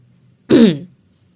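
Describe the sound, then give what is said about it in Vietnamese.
A man clears his throat once, a short, gruff voiced rasp of about half a second that rises sharply and fades, with near silence before and after. “Ông ta hắng giọng hơi quay mặt đi, kiên đáo nhắc nhở Linh Lan.”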